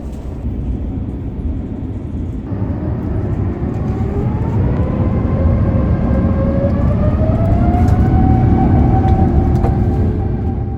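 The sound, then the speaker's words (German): Airliner jet engines start and the aircraft taxis toward runway 23 at Hamburg. A loud, steady, low rumble carries whining engine tones that climb slowly in pitch as the engines spool up. “Wir machen dann also Pushback in Hamburg, die Triebwerke werden gestartet und wir rollen zur Piste 2-3 und starten in Richtung München.”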